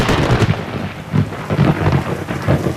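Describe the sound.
Thunder rumbles during a summer thunderstorm: low, rolling surges rise and fall several times over a constant loud hiss of rain, with no voices.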